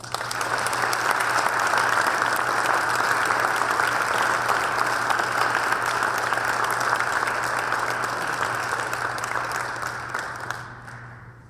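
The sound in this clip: An audience applauds to welcome a speaker, a steady, dense patter of many hands clapping that holds evenly for about ten seconds before tapering off at the end.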